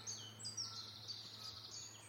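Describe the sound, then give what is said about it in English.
Birdsong in a woodland: faint, high chirps and short trills repeat at an irregular pace over a steady low hum. “Listen to that cascade of birdsong.”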